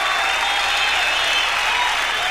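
Audience applause welcoming a performer onto the stage at a New York concert: steady, dense clapping mixed with crowd noise, holding an even loudness from start to finish.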